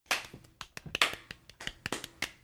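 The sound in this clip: Small, sparse round of applause, a few hands clapping in quick, uneven bursts of sharp, crisp claps, fairly faint and heard alone without voices.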